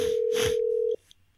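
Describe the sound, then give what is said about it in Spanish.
A single steady electronic tone from a Telegram voice call that is connecting sounds for just under a second, then cuts off abruptly, leaving faint clicks. “Llamada de Telegram desde España, Chile.”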